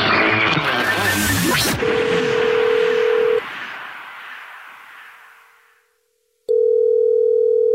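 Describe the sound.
An outgoing telephone call: a quick burst of keypad dialing tones, then a steady tone that fades into silence, followed by a loud, sustained ringback tone.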